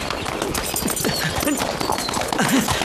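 Clip-clopping hooves of a horse being ridden, a quick, steady run of hoofbeats that stays at an even loudness throughout.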